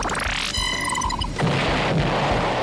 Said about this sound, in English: Time to kick it into overdrive. Afterburners activate.